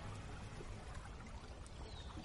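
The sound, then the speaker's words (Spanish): Steady watery wash of a rowing boat moving along a river beneath large overhanging trees, an even, continuous hiss of flowing water with no distinct separate strokes. “Más tarde navegan en una barca de remos por una parte del río cubierta por grandes árboles.”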